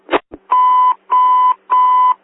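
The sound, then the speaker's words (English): Electronic alert tones on an emergency dispatch radio channel: two short static bursts, then three loud, even beeps of equal length and steady pitch with brief gaps between them. “Bells ringing.”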